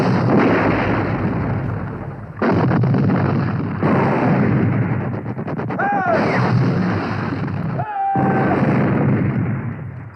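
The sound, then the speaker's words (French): Artillery shells the Austrians in a relentless bombardment beside the Adige. Dense, rumbling blasts pound without pause, with a couple of sharper surges and two brief whistling sounds over the continuous roar. “Bonaparte rassemble ensuite ses hommes de l'autre côté de l'Adige et avec le soutien des troupes d'artillerie du général Serrurier, il pilonne sans relâche les Autrichiens.”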